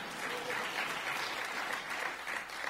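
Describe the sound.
Audience applause at a political gathering, a dense and steady wash of many hands clapping at an even level throughout, with no break and no voices standing out.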